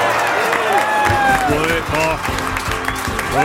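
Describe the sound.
A studio audience applauds in a steady, dense wash of clapping that runs the whole way through, with a man talking over it.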